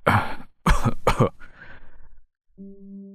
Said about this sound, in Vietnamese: vừa lên tiếng đã ho khù khụ, hít thở khó khăn